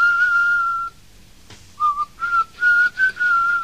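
Melodic human whistling in an English pop song: one long, steady high note, a brief pause, then a quick run of short, bright whistled notes at a similar pitch. Clear and prominent, with no singing.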